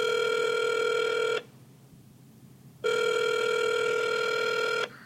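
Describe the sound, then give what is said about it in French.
A telephone rings on an outgoing call: two long, steady, bright electronic rings separated by a pause of about one and a half seconds, with no voices. “Et si on demandait de l'aide à notre ami Christopher de Mini TFO? Appelons-le!”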